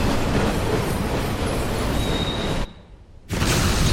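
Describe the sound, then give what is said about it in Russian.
A train rolls over a bridge, its wheels giving a loud, steady rumble with clatter and a faint high squeal. The noise drops briefly near the end, then returns at full strength. “Проезжая еще один небольшой затор, состав съезжает с моста.”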